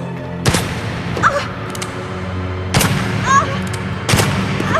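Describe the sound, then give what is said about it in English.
Gunshots in a dramatized shooting: three loud, sharp blasts at spaced intervals, each a sudden crack with a short decay, and fainter clatters between them. “Lillian shoots Arabella. No!”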